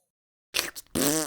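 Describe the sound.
Cartoonish fart sound effect triggered by a kick move in a video game, two short bursts after silence, the second longer, louder and buzzing with a pitched, tonal quality.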